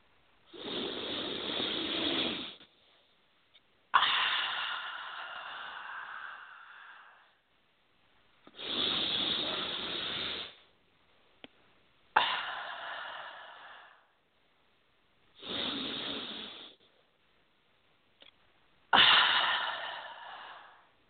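A person takes three slow, deep breaths. Each is a gradual, airy inhale followed by a longer exhale that starts abruptly and fades out, with short quiet gaps between them.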